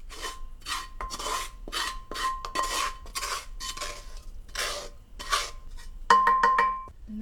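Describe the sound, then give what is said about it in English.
A spoon scrapes and stirs in a metal pan as tadka is mixed into dal. Rasping strokes repeat steadily, and a few ringing metallic clinks come near the end. “I'm gonna add the tadka into the dal.”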